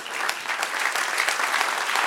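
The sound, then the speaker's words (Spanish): Dense, continuous applause from a church audience during a Spanish-language sermon, a steady wash of many hands clapping together at even loudness throughout, with no voices standing out. “Denle un aplauso al que es rey.”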